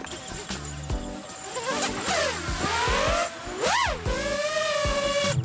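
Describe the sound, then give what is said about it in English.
A motor switched on and running, its whirring whine rising and falling in pitch, with people talking over it. “Basically, throwing will be, you hold it with your two fingers down here, so nothing can cut you. Yes. I turn on the motor.”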